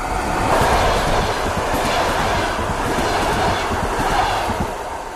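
A train passes through a station: a loud, steady rolling roar with rapid, rhythmic wheel clatter that continues throughout, with no voices.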